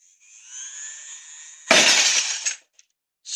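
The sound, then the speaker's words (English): A glass on the edge of a table shatters in a loud burst of breaking, tinkling shards. A high, steady whine comes before it, and a single small clink follows as the crash dies away. “It's amazing. The glass was shattered.”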